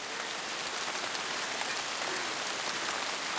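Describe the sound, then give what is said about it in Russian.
Steady rain pours down on a person lying on the ground beneath trees, wrapped in a blanket. The constant, dense hiss stays even and unbroken throughout, with no voices. “Она лежит на земле, глядя на кроны деревьев. Дождь льет на нее.”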